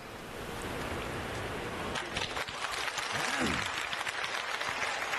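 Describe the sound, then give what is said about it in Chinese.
Audience applause at a Chinese crosstalk comedy show: a soft, steady hiss fills the first seconds, then dense clapping from the crowd rises and carries on at a fairly even level to the end. “谢谢大家伙儿的掌声鼓励。 哎，感谢诸位。”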